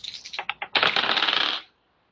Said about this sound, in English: Come on, dice.